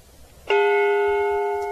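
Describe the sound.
A memorial bell struck once in memory of the fallen, ringing out with a sharp onset and then a long, bright, sustained tone that fades only slowly.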